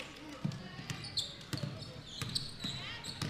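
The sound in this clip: Basketball dribbled on court at a game between the Kansas City Redhawks and the Badak Hatchets: sharp bouncing thuds in an uneven rhythm, heard under talk and crowd noise.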